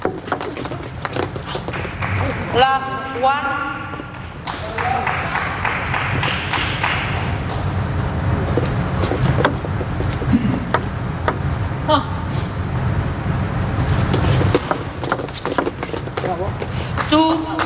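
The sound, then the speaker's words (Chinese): A table tennis ball clicks sharply off bats and table during serves and returns in a competitive match: many quick, light ticks in an uneven rhythm over a steady background, with a man talking throughout. “连续的两个接发球，斯托克斯的落点接得很开。”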